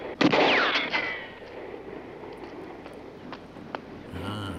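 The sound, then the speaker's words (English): Gunfire in a TV drama scene where a man is shot at and hit in the shoulder: one loud, sharp crack near the start with a noisy decaying tail, then a couple of much fainter clicks. “Paul's been handed a bottle, and, oh, now someone's taking shots at him.”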